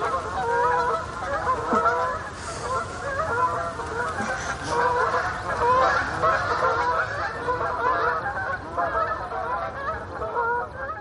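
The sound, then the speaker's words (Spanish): Honking calls from a flock of ducks flying past in formation: many overlapping nasal calls, loud and continuous from start to end, with no voices. “Una bandada de ánades pasa en formación.”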